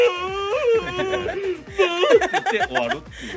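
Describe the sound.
A voice imitating a whimpering baby, with high, wavering, tremulous cries that rise and fall in short, broken bursts.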